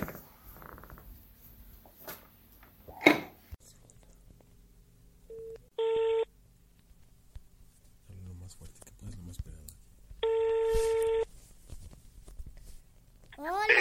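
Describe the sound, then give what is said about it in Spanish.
A telephone being dialed: a few faint clicks and taps, then two steady, buzzing electronic tones, the second lasting longer, separated by quiet stretches. “Bueno, vamos a ver si le marcamos.”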